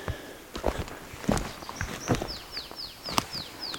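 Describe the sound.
Footsteps walk through a logged forest along wheel ruts left by a forwarder or harvester. A few soft, crunching steps fall at a steady pace, and a bird's repeated descending chirps join near the end.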